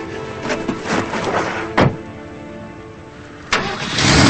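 Jeep engine starting and the vehicle driving away: a rumbling engine runs throughout, broken by two sharp, brief bangs, and the engine noise swells again toward the end.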